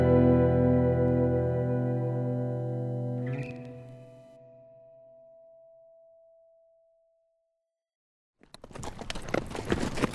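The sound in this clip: Horses ride along a draw in rugged Arizona territory, their hooves sounding as a quick run of irregular clip-clops that begins after a sustained musical tone fades into silence.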